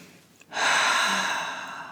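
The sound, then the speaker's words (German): A long, deep breath drawn in during a guided relaxation exercise: after a quiet pause, a breathy rushing inhale swells quickly and then holds, slowly tapering off. “Und schließ deine Augen. Atme mal ganz tief ein”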